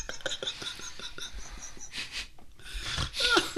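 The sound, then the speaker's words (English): A person snorts, with loud, wheezy bursts of air forced through the nose, several rapid short puffs followed by a few stronger, noisy blasts of breath. “So, remember how I'm not supposed to snort this episode?”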